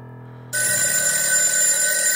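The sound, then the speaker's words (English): Telephone bell ringing: a low hum gives way abruptly to a loud, continuous metallic trill that rings steadily to the end. “my phone rings and I scream.”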